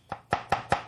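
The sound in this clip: A chef's knife chops food on a board, five sharp, crisp strikes in an even, quick rhythm. Each hit stands out cleanly against a quiet background, with no voices.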